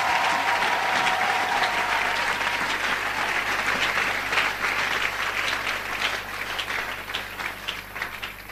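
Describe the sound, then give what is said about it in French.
A church audience applauds to acclaim the Lord with loud, sustained clapping from many hands that eases slightly toward the end. “Est-ce qu'on peut encore acclamer le Seigneur?”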